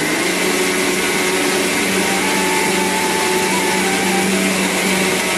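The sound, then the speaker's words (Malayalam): A mixer grinder grinds roasted spices and fennel seed into a paste, a loud, dense whirring motor roar that holds steady without a break from start to finish. “അതിനുശേഷം ഇത് നല്ല രീതിയിലൊന്ന് പേസ്റ്റാക്കി അരച്ചെടുക്കുക കേട്ടോ. ആദ്യമേ ഇത് നമ്മൾ നന്നായിട്ടൊന്ന് പൊടിച്ചെടുത്തതിന് ശേഷം കുറച്ച് മാത്രം വെള്ളം ചേർത്തിട്ടൊന്ന് അരച്ചെടുത്താൽ മതിയാകും”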